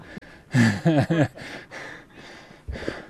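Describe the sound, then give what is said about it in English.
A hiker breathes heavily while trudging up the trail out of Meteor Crater: some voiced, gasping breaths first, then a few loud, rasping exhales with short pauses between them. “We make progress, one step and one deep breath at a time.”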